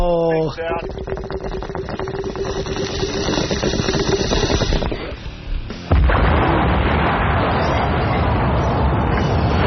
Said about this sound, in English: can you take me out with a bong hit followed by an explosion? Here you go.